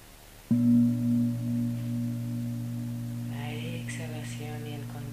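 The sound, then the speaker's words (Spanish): A bong chime as a mindfulness cue: one struck onset that rings into a sustained low, harmonic tone, slowly fading as a voice begins speaking over its tail. “El sonido del bong será una llamada de atención para que verifiquemos nuestro estado mental.”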